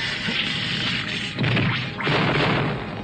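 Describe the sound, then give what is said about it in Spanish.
A chunk of glacier ice breaks off in an animated adventure scene. Two heavy crashing bursts with low rumbling stand out over a constant noisy background. “Romperé un pedazo de este glaciar para bloquear la entrada.”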